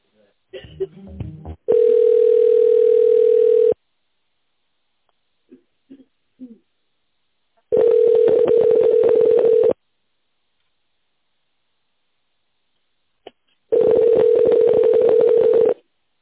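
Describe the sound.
Ringing tones on a telephone line while a call is transferred: after a brief voice at the start, three long, steady mid-pitched tones sound at even intervals, each about two seconds, with quiet stretches and faint clicks between them.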